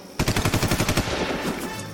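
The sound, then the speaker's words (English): A rapid burst of automatic gunfire in a radio war drama set in a cave, loud evenly spaced cracks for about a second that trail off into a fading rumble. “Lieutenant, stay where you are. We will return fire.”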